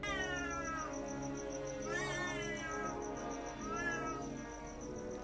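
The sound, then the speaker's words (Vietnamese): Cat meowing at midnight: three drawn-out, wailing meows come about two seconds apart. They rise and bend in pitch over a steady background noise. “Cứ thử tưởng tượng nửa đêm mà nghe cái tiếng mèo kêu thì có mà sợ chết khiếp.”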